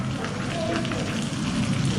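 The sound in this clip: Steady rain falling, a dense, continuous hiss of drops that stays even in loudness throughout.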